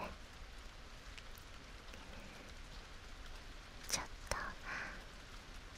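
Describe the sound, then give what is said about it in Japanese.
Soft, steady rain gives a faint, even hiss throughout, with a few brief crisp taps standing out partway through. “スズメも泣き止んでしまって、あなたとの間は雨の音一つになって、”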